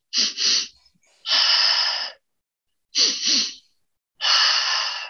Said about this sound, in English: If you're looking to activate some more, maybe bringing more speed to your breath.